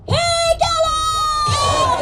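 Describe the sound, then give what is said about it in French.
A crowd of Tibetan emigrants protesting outside the Capitol chants a rallying cry for a free Tibet: loud, drawn-out voiced shouts with a held note, resuming after a brief break. “Ce que vous venez d'entendre, c'est le cri de ralliement pour un Tibet libre.”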